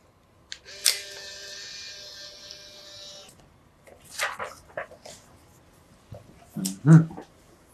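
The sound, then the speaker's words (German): A camera takes a quick photo: a sharp shutter click followed by a steady, high electronic whine for about two seconds, then a few further clicks and rustling sounds. “Und bevor Sie sich eintragen, machen wir noch ein schnelles Foto.”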